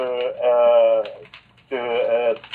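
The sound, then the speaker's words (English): A printer that has run out of paper gives two sustained, buzzy tonal bursts, each roughly a second long, separated by a brief quiet gap. “What the fuck is that sound? Oh, that's me. I have to put print paper in.”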